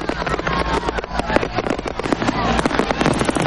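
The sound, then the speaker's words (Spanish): Fireworks bursting and crackling outside a bar in a dense, rapid barrage of sharp pops over a steady low rumble. “mientras los fuegos siguen estallando”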